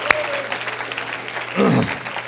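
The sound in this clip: Congregation applause at an evening church service: a dense, steady patter of clapping with a swell near the end, a low hum underneath and voices mixed in.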